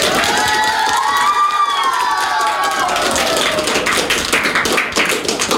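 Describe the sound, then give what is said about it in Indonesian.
Applause and cheering for a vocal duo and their keyboard player at a talent showcase: high voices whoop and shout over clapping at first, then the crowd settles into brisk, sustained hand-clapping. “Ayo berikan aplaus yang meriah untuk Jesse dan Cheryl.”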